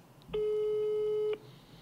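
A mobile phone sounds a single steady electronic tone, clear and moderately loud, for about a second. It is heard alone against a quiet background.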